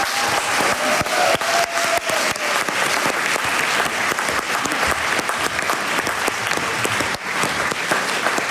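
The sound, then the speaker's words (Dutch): Audience applause at a poetry gathering, dense and sustained clapping that holds at a steady loud level for the whole stretch. “En geeft u die een hartelijk applaus.”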